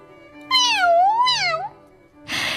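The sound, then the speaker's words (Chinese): A tabby cat gives one long, wavering meow with a rising and falling pitch, clear and fairly loud against quiet surroundings. “讨命婆展示一下这只虎斑猫到底是多么有趣儿， 她跑到屋里找来了一团毛线，她把毛线一点点地撒在地上散开来。”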